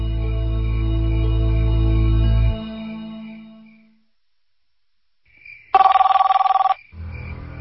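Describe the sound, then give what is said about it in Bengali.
A telephone rings in one short, loud, buzzing burst after a fading low hum and a stretch of silence, with no voices. “Hello, আপনি আবার phone করেছেন, কেন করেছেন?”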